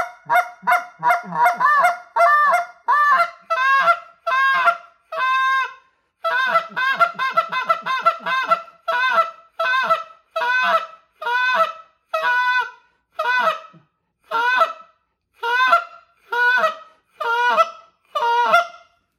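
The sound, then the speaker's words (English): A hand-blown goose call imitates Canada goose clucks and moans. Loud, rhythmic runs of honking notes alternate short clucks with longer moans, with many notes and a brief pause partway through. “That is just plain meat potatoes sounding like a Canada honker, just hitting those geese, cluck, moan, cluck, moan.”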